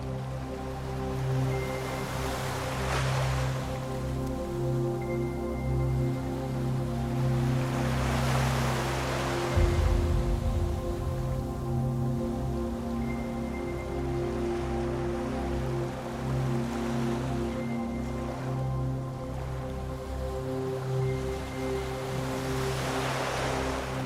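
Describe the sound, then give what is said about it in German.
Ocean waves rolling in slow, rocking swells that rise and fade every few seconds over a steady low drone, with no voices. “Das Schaukeln der Wellen macht dich schläfrig.”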